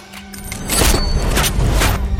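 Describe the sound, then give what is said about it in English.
Gunshots from the Tenet film trailer: two heavy, booming blasts about a second apart over a sustained low rumble. “Aim it and pull the trigger.”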